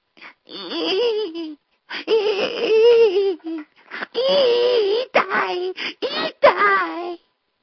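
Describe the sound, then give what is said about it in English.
A human voice imitates a wounded platypus moaning, with several wavering, high-pitched moans and whimpers broken by short pauses, heard alone. “if you've ever heard a wounded platypus moan, it sounds a little like this.”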